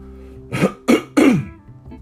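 Coughing from an itchy throat: three short, rough bursts in quick succession, the last one slightly longer and more gravelly. No talking.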